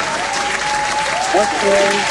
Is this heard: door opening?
no